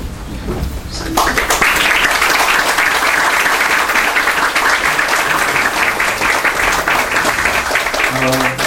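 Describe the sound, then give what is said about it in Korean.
An audience applauds during a gift presentation at a church ordination ceremony. After about a second of quieter sound, thick clapping breaks out and carries on loud and steady to the end. “전달하실 때 뜨거운 박수 부탁드리고 꼴 놓으십시오.”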